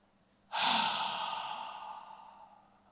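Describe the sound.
A voice imitates a long breath blown out: one strong exhale that starts abruptly, then fades steadily over about two seconds, heard alone without talk.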